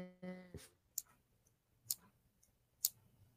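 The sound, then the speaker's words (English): Faint, sharp clicks come at roughly one-second intervals, three of them prominent and a few fainter ticks between. A brief buzzing tone sounds just before the first click. “Is someone clicking? Is there clicking going on? I keep hearing. I heard it clicking, but it wasn't me.”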